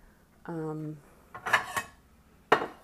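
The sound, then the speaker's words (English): Plates clatter as they are wiped off and put away, with a short tonal squeak followed by a few sharp, separate clinks of crockery knocking together. “I am going to go ahead and wipe off these plates and put them away because there's just too many of them.”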